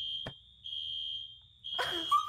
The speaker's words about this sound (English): I'm going to continue with this while this alarm's going off in the background.